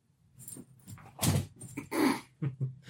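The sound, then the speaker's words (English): A dog whimpers in a few short, uneven bursts of moderate loudness, with quiet gaps between them. “Oh yeah, poor dog. Come on. Such a hard life.”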